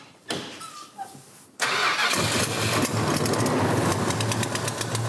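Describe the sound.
A car's V8 engine, suspected of a broken gasket or a cracked manifold, starts up. A brief starter click and whir leads to a loud catch, and the engine settles into a steady, rough, rumbling idle.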